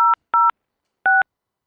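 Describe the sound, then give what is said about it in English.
Touch-tone keypad dialing of an extension on an automated school phone menu, three short, clean dual-pitched beeps, the first two close together and the third after a pause. “If you would like to reach the activities office, please dial **5006 now.”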